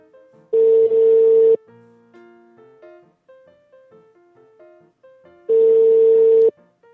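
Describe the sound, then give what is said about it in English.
Telephone ringing tone heard while calling someone, two long steady tone bursts several seconds apart, with a quieter sequence of short melodic tones between them. “let me try calling him again”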